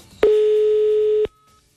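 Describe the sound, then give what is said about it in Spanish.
A single steady telephone tone sounds as a call is redialed, a clean mid-pitched beep lasting about one second that starts and stops abruptly, with near silence on either side. “Ay, no, llamemos de nuevo. Ahí está marcando de nuevo.”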